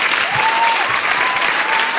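Applause from a live audience greeting a band as it is introduced: a steady, dense wash of clapping that stays even and fairly loud throughout.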